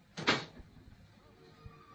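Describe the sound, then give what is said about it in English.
A door closes behind a young man as he leaves: one soft, muffled thud, then near quiet with a faint knock afterward. “He's gone. The door has closed behind him.”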